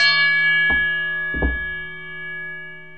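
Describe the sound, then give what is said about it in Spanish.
A bell chime used as an intro: two distinct strikes about three-quarters of a second apart over a sustained, steady ringing tone that slowly fades. “le damos la entrada con claro, una campanada”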